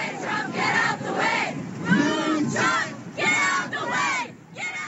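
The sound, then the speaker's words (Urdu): Protesters chanting at a climate rally against the Trump administration in the United States, a loud crowd shouting in repeated rhythmic phrases with short gaps between each call. “مظاہرین Trump کو ہٹا دو کے نعرے لگا رہے تھے.”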